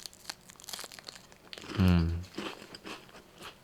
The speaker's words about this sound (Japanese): すいませんね、ちょっとルマンド食ってるんで。いや、なんで食べてるかっていうとね、一人は寂しいもんね。